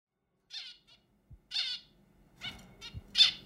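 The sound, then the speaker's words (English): A zebra finch, a small Australian bird, sings to its unhatched chick in a few short, bright, high chirps spaced irregularly, with brief soft low thumps in between. “That is the sound of a zebra finch, a small Australian bird, singing to its chick.”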